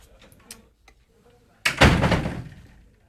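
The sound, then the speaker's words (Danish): A door slamming: a few faint ticks and taps, then one loud, sudden bang that rings down over about a second. “Ja, det lyder simpelthen som om han smækkede med døren. Det var da brutalt.”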